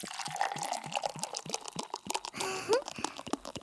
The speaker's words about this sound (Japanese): グラス空いちゃってる。注いであげるね。